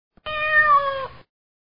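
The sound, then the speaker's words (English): A single cat meow, clear and tonal, rising slightly and then falling, lasting about a second, loud and alone with silence around it. “Horses neigh and cats meow.”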